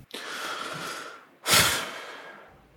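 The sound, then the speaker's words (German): Heavy breathing from a person during a video gaming session: a long, airy inhale, then a louder, forceful exhale that fades away, with no talking. “deswegen atme ich auch so schwer.”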